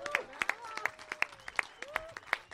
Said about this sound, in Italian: gli artisti stanno prendendo l'applauso del pubblico